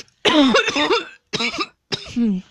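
Coughing fit from smoking a harsh, dry blunt: three rough, voiced coughing bursts, each louder at the start, separated by short silences.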